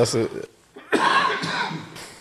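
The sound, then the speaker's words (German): Coughing from a person who has been out in the cold: a short bit of talk, a pause, then a long run of rough, breathy bursts. “du musst langsam aus der Kälte, man hört es an deinem Husten.”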